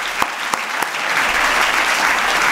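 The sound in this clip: A studio audience applauds to welcome a guest on a show. A few separate claps open, then swell into steady, loud, continuous applause.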